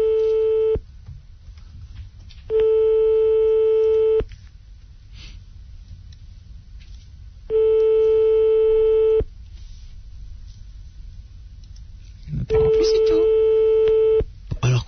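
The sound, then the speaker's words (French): Telephone busy tone after a call cuts off: a steady, loud electronic tone repeating in long even bursts, four in all with the first clipped at the start, separated by stretches of faint low noise. “Chaque fois, nous entamons la discussion et ensuite le téléphone se coupe.”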